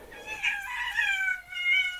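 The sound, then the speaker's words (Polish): A pet cat meows a few times in drawn-out, wavering mid-pitched calls, fairly faint, with no talk over it. “No właśnie, pozdrawiamy mojego kota.”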